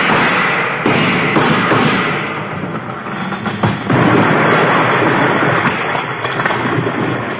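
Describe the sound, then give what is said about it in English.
Gunshots fired at a column: a few sharp cracks and thuds stand out above a dense, steady noisy rumble, with no voices. “Let's both take a few shots at that column over there.”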